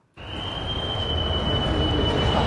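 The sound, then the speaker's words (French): Rail noise at a busy railway station in Bern starts abruptly after a brief silence: a loud, steady rumbling wash with a sustained high-pitched whine running through it. “s'est rendue à la gare de Berne, où transitent quand même chaque jour 100 000 personnes.”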